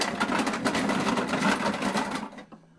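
A capsule toy gacha machine being cranked, giving a dense, steady mechanical rattle for about two seconds that stops abruptly, followed by a single small click.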